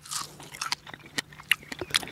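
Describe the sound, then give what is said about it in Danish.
Someone bites into a fresh strawberry just picked in a field, making a few quiet, moist crunches and chewing clicks at an uneven pace, with no talking. “nu vil jeg redde det her jordbær, fordi det skal nemlig ned i min mave”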